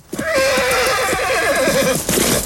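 A horse neighs as it rears, one loud, long, wavering whinny over clattering hooves.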